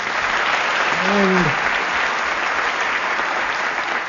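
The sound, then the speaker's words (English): Studio audience applause, a steady dense patter of clapping that holds at an even level for the whole clip. “Applause for Tennessee, no doubt.”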